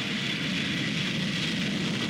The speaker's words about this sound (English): on Concorde 002 as she taxied towards the runway at Filton. It was Chief Test Pilot Brian Trubshaw's decision whether she flew or not. It could be another high-speed taxi test, but the Great Bird looked ready to fly, and fly she did.